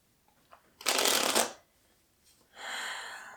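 Oracle cards being shuffled for a card reading: two bursts of papery riffling, a longer one first and then a second, with no talking.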